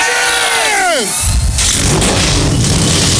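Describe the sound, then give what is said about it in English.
Race car engines firing up together at the start of a race at Pocono, Pennsylvania: a dense, loud roar bursts in after a drawn-out shouted voice falls in pitch, then holds steady and continuous to the end. “The command to fire engines, and we're getting ready to go racing here in Pocono, Pennsylvania.”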